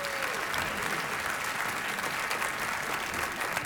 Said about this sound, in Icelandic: Gefum honum gott klapp.